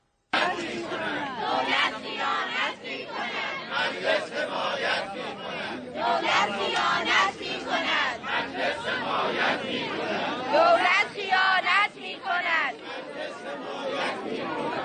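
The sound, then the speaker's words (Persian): Teachers at a street protest in Kermanshah, Iran, in January 2019 chant together: loud, continuous massed voices rising in rhythmic shouted slogans for the whole stretch. “در کرمانشاه فرهنگیان در چند شهر صبح روز پنجشنبه 20 دی 1397 به خیابان‌ها آمدند. بشنوید صدای فرهنگیان را.”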